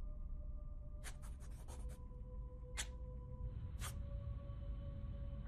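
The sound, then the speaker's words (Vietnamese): A small piece of red brick scrapes and draws across a porch floor, making faint, dry rasping strokes: a quick cluster of short scratches, then two more isolated strokes after brief pauses. “Tay cổ Mị cứ như vậy đưa qua đưa lại màu gạch trên hiên nhà, tạo thành những tiếng loẹt xoẹt.”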